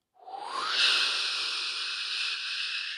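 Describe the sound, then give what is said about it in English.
A slow exhalation through the mouth during a guided breathing exercise makes a smooth, breathy hiss that swells quickly at the start, then holds steady and alone for about three seconds. “Hold the top. Slow, confident exhalation through your mouth.”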